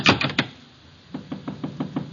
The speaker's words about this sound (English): There's someone at the door.